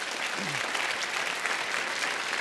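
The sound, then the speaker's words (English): Applause from an audience at a debate event: dense, steady clapping that holds an even loudness for the whole clip. “I'd like to do that with a round of applause.”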